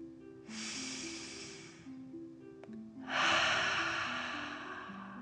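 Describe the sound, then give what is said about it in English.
Two deep, drawn-out breaths are taken in and out like a dragon during a relaxation exercise. The second is louder and longer, and both sound over a soft, steady melodic tone. “And breathe like a dragon in and out.”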